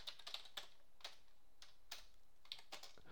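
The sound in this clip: Keys clacking faintly on a computer keyboard as someone types a web search, a run of light, irregular clicks with short pauses and no talk.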